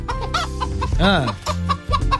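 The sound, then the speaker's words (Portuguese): A hen clucks in a radio studio: a few short clucks and one longer, warbling call in the middle, fairly loud and mostly on its own. “É a Gilda, a nossa galinha vidente, que vai dar o resultado do jogo Brasil Marrocos.”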